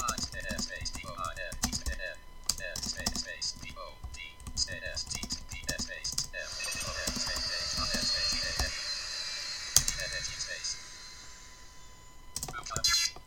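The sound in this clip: Computer keyboard typing as someone enters an out-of-character chat message in an online game, a long run of quick, irregular key clicks that stays fairly even in loudness throughout.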